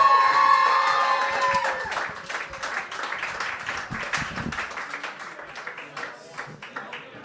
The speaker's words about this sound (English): and you all clap for her.